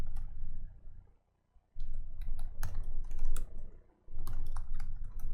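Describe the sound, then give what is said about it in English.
Typing a command on a computer keyboard: rapid, clattering keystrokes in bursts, broken by two short pauses, over a low hum. “Let me type in the command.”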